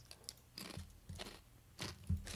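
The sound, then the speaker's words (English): Someone eats a crunchy chip: a few faint, crisp crunches and chewing bursts come at uneven intervals, with no talk. “I'm gonna take this chance to eat a chip here.”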